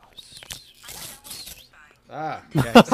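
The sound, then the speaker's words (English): A cardboard package is torn open in several rasping, crackling rips of varying length, with voices joining toward the end. “I'm going to do some ASMR as I tear this open.”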